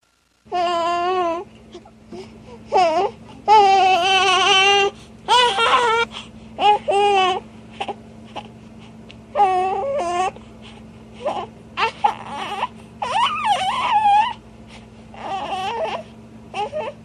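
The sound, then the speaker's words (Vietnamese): An abandoned infant screams and cries loudly in a series of harsh, wailing bursts with wavering pitch, separated by short gasping pauses. “Ông Jerome lúng túng vì đứa bé la hét ầm lên”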